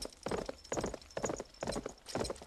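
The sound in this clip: Horse hooves clip-clopping as riders set off toward a royal palace, a steady rhythmic gait of repeated clustered hoofbeats at moderate loudness.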